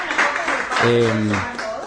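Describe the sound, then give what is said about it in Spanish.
Applause at the closing awards ceremony of a Christmas sustainability contest for local businesses, steady clapping with a single voice calling out briefly over it. “un aplauso para todos y agradecer a todos los que formaron parte”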